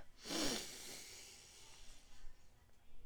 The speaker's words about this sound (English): I need you all to take a deep breath in